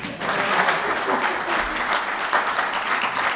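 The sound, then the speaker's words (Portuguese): An audience applauding at a marketing association event, steady dense clapping that holds at an even level for the whole stretch. “Aplausos para vocês”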